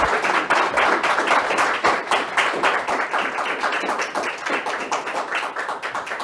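A studio audience applauds to thank the guests, a crisp run of many distinct claps that starts full and gradually thins and softens toward the end.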